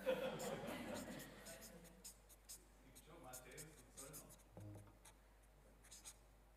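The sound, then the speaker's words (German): A marker or pen scrapes across a board as a name is written: a few short, faint scratchy strokes. A voice is heard briefly at the start. “Den schreiben wir mal da oben hin.”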